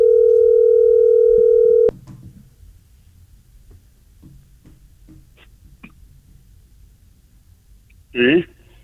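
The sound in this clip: A loud, steady telephone dial tone holds for about two seconds and then cuts off abruptly. Faint clicks and handling noises follow, with a brief louder burst near the end.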